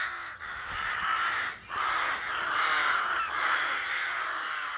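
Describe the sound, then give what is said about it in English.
Rooks call in the countryside, giving harsh, raucous caws that overlap into a continuous, moderately loud chorus with brief dips between bursts. “the sounds of rooks are intrinsic to the acoustic heritage of the countryside”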